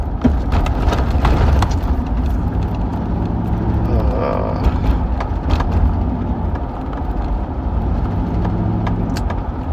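A car driving, heard as a loud, steady rumble of engine and road noise that runs without a break, with scattered faint clicks and ticks on top.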